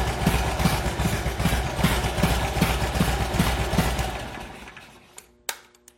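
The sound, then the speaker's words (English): A motorcycle engine idles while warming up with a steady, loping throb, then dies away. One sharp click follows in the quiet. “All right, once the bike is warmed up, go ahead and turn it off.”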